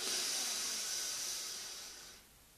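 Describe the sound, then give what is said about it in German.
A deep inhalation during a Qigong breathing exercise: one long, airy, hissing breath drawn in for about two seconds, softly fading away at the end. “Und mit dem Einatmen sammelst du die Energie in dir, sammelst du dieses Qi in dir. Mit dem Ausatmen leitest du es durch deine Hände und Fingerspitzen raus in die Kuppel. Los geht's. Eins, einatmen.”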